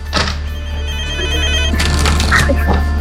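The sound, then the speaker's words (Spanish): A telephone rings with an incoming call to a radio show: a loud electronic ring of bright, steady tones over a constant low hum. “Vamos con una llamada más a lo exitosa, a la hora esotérica con Mosul.”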